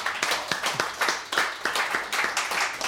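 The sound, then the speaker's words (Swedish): Studio audience clapping in a steady rhythmic beat, many sharp claps repeating evenly at a quick, lively pace throughout. “Ta emot jublet.”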